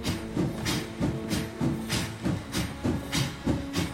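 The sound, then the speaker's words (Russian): A steam locomotive starts to move off, giving a regular series of hissing chuffs in an even, driving rhythm, each burst pulsing over a low mechanical rumble. “Колеса поезда начинают вращаться. Поезд трогается.”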